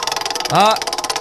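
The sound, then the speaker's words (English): A prize wheel spins during a morning-show game segment, giving off rapid, evenly spaced ticks with a brief tonal swoosh rising in the middle, then settling back into steady clicking. “Let's spin the wheel first to find out what game we're playing. Here we go.”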